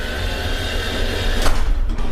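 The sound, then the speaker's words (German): A historic tram door in Naumburg closing, a mechanical rumble over steady noise with a brief sharp clunk about midway. “Dann können wir die Tür zumachen.”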